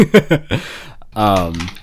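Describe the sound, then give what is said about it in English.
Typing on a computer keyboard clicks away beneath people talking, the keystrokes faint and mostly masked by the voices through the short stretch. “Yeah, type away.”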